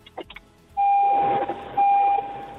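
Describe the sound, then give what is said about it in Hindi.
A car's door-open warning chime sounds as two sustained electronic tones, each held for under a second with a brief gap between, steady in pitch and fairly loud, after a few faint rustles. “मुझे ऐसा क्यों लग रहा है आपने अपनी गाड़ी का दरवाजा खोला है और हम सभी को टिंग टोंग सुनाई दे रहा है.”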